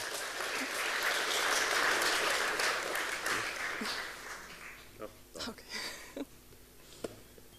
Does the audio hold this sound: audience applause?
yes